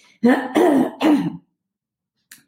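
A person with phlegm in the throat clears it in three short, gruff, rasping pushes in quick succession, followed by near silence.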